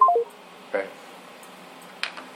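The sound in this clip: A telephone call is dialed: three quick beeps step down in pitch at the start, then faint line hiss broken by a couple of soft clicks.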